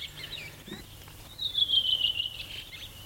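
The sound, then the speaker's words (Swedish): Fieldfare song outdoors: faint, high, thin chattering notes rising above a quiet, steady background hiss, with a brighter stretch of song in the middle. “Och sen kommer det ett litet björktrast. Krax efteråt. Och så sitter en annan hanne och sjunger en bit bort och svarar.”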